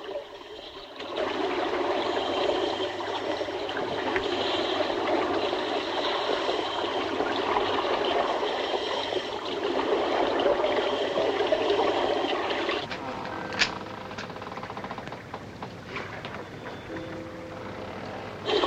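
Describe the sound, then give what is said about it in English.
Water swirling and trickling as frogmen with oxygen tanks swim through a square hole cut in wire mesh by a pier, a steady gurgling wash that thins after about thirteen seconds, with a sharp knock soon after. “With one man on either side holding the wire clear, the others swim through the hole.”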